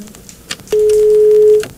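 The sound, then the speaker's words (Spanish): A telephone tone sounds after a caller's line drops on a radio phone-in show: one sustained, steady, mid-pitched beep lasting about a second, preceded by a few faint clicks. “Se cortó por ahí la llamada. Bueno, a ver si nos pueden comunicar de nuevo.”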